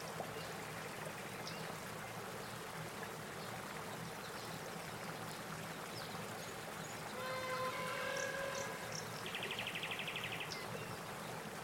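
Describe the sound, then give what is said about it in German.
Soft murmuring river water on a river trip, a faint and steady rushing wash. Songbird chirps and a brief trill come in during the second half. “Das säuselnde Wasser und die Singvögel untermalen den Augenblick.”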